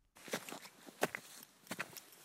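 Soft footsteps of people walking together into a moor early in the morning: a few faint, crunching steps at an uneven pace, alone and quiet.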